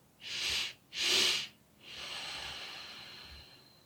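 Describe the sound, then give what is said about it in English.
Two sharp nasal inhales, the second topping up the first, are followed by one long, softer exhale through the nose in a breathing exercise, all alone without talk. “take another inhale to really fill up, and then exhale through your nose. So it's going to sound like this.”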